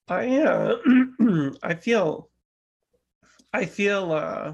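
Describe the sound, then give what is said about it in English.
A person clears their throat in several short, rough, voiced bursts. A brief silence follows, then more vocal sound resumes. “Sorry about that throat clearing there. Sorry about that.”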